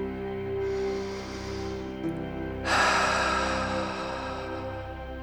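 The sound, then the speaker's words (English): A deep breath during a slow-breathing exercise, let out as an audible, sighing exhale. It swells partway through into a broad, airy rush that holds steadily to the end, over a low constant hum. “Taking an audible sigh on the exhale out. Listen to my breath now as an example of this.”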